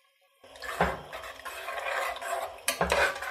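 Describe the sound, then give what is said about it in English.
A spoon stirs salt into a pot of water simmering on the stove, with scraping and swirling against the pot. Two louder knocks of metal on the pot stand out above the steady bubbling hiss. “Stir it in.”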